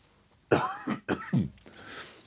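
Several harsh, rough coughs come in quick succession, loud and alone, with a fainter breathy throat noise trailing after them.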